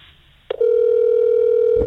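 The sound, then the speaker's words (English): A telephone dial tone sounds while calling to leave a voicemail: a short click and burst, then a loud, steady single-pitched hum that holds evenly and ends with a low thump. “Let's leave a voicemail.”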